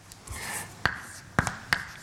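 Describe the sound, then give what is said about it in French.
Writing an equation on a board: a soft scratchy stroke, then three sharp taps of the writing tool, quiet and with no voices. “C'est une équation locale que je vais écrire.”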